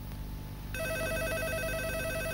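An office telephone rings with a steady electronic trill. It starts abruptly after a moment of low hum and continues unbroken to the end, with no voices.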